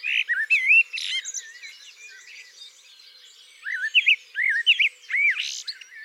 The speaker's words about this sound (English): Each bird composes its own motifs. So typically a bird might have a repertoire of around 40 motifs.